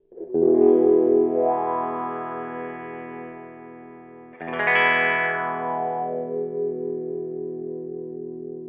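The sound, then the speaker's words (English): An electric guitar played through a wah-wah pedal rings out on two sustained, distorted chords, each one swept by a vocal, wah-like filter that brightens and then mellows as the note decays. “you can rock it forward and back and get a wah-wah kind of sound.”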